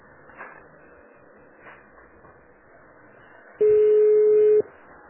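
A telephone tone sounds while someone calls a bank: one steady, flat, mid-pitched beep about a second long follows a stretch of faint background noise with a few soft bumps.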